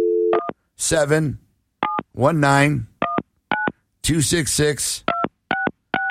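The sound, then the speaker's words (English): Telephone keypad dialing tones: several short, sharp two-tone beeps spaced irregularly, with a voice sounding between the beeps. “Turn that phone thing on. You got it on, right? Yeah, you want me to hit the button? Yeah. Hit the button. All right, dial”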